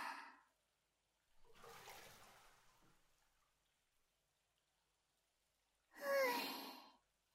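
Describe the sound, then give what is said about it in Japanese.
Water rushing away in a bath as it is flushed clear: a soft, brief splash, then a longer gushing surge, a stretch of quiet, and a final louder burst of water. “出したものはきれいに流してしまいましょう。ザバーっと。”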